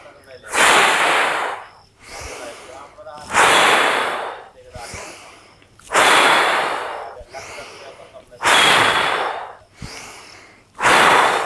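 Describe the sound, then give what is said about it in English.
Forceful deep breathing in Bhastrika pranayama, with full inhales and exhales pushed hard through the airway. Loud, rough breath bursts repeat in a steady rhythm across the whole stretch, stronger blasts alternating with softer ones, and there is no talking. “We inhale, the hands come up. Exhale, hands come in by our sides, forcing the breath out. Full breaths.”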